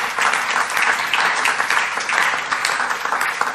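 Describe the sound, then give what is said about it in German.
Audience applause welcomes guests at a talk event: dense, steady clapping from many hands that holds at an even, fairly loud level throughout. “Herzlich willkommen und bitte einen Willkommensapplaus.”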